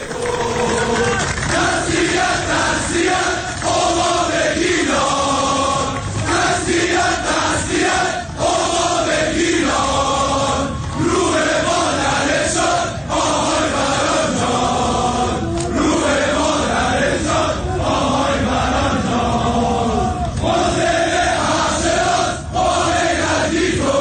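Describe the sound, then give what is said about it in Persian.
Football spectators at a Damash match against Shahrdari Bandar Abbas in Azadi Stadium chant a slogan together, a loud, continuous massed roar of voices repeating rhythmic phrases without pause. “آقای مسلم حق شناس مادرشون رو از دست دادن و تماشاچی ها این شعار رو میدن.”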